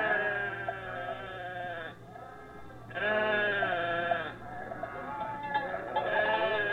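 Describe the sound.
Sheep bleat in a few drawn-out, quavering calls, loud and rich in harmonics, with short pauses between them over a steady low hum.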